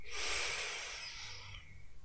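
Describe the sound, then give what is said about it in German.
A slow, deep inhale during a guided meditation, an airy rush that swells early, then gradually thins and fades toward the end. It is soft, with no voice over it. “Atme tief ein.”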